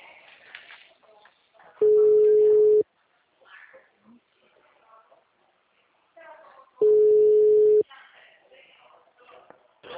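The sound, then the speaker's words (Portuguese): Telephone ringback tone on an outgoing call: two long, steady, mid-pitched tones, each lasting about a second and spaced several seconds apart, with faint talk and background noise in between. “Agora tá chamando ali.”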